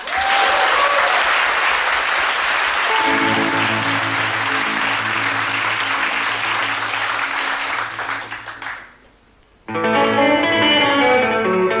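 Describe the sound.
An audience applauds loudly and steadily at a live concert. Sustained musical tones join beneath the clapping, then the applause fades to near silence before music starts again.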